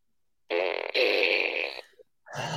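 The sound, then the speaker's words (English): A fart noise made right into the microphone: a loud, buzzy rasp that breaks briefly and carries on, followed by a tiny blip and then another rasping blast starting at the end. “Now it's producer like the puppet lady farting into the mic.”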